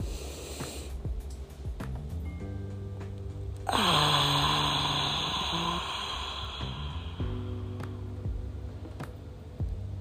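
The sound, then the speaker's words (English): One long, deep breath with a rushing, airy onset that slowly fades, heard over soft, sustained background music. “One more deep breath.”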